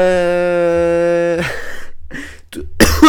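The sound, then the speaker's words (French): A coughing fit from someone choking: after a long steady voiced tone, several harsh, breathy bursts break out in quick succession, with a sharper cough near the end. “Oh pardon, je suis en train de m'étouffer.”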